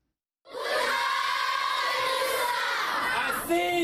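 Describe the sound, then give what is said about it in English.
Primary school children at a refugee camp in northern Cameroon sing together to welcome a visiting minister, a many-voiced chorus that bursts in after a brief silence and holds steady, bright sustained notes with a slight shift near the end. “Primary school kids at the Minawawa refugee camp in northern Cameroon sing to welcome Nigerian Interior Minister Abdurrahman Dambazaw”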